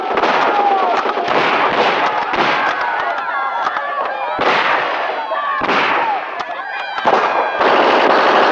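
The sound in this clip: Gunfire in a radio drama battle scene: a dense, continuous barrage of many loud shots and blasts crackling without pause, with shouting voices heard through the racket.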